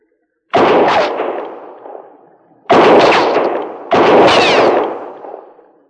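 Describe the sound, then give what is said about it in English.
Three loud gunshots fired at a person, each a sharp crack followed by a long rolling echo that fades. The second and third shots come closer together than the first two. “Maybe my shots will get a little closer to you from time to time.”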